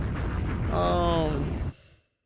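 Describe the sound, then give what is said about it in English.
A bomb-drop sound effect, a loud roaring rumble with a ringing, whistling tone over its middle, which then cuts off and fades quickly into silence. “I'm going to just go ahead and... drop a bomb for that because I'm about to go in with this one.”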